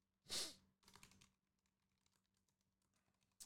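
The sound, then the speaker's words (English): Faint typing on a computer keyboard: one louder burst of key clicks at the start, followed by a sparse, irregular scatter of quieter taps. “Damn, I can't type.”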